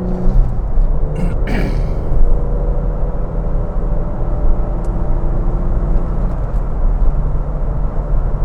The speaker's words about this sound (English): Let's get third gear here. Punch it in, punch it in.